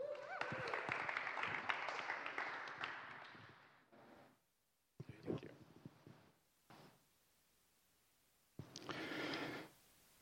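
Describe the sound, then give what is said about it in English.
A church audience applauds as two speakers are welcomed up. A few seconds of dense clapping fade out and are followed by several shorter, quieter bursts of sound. “So let's give them a round.”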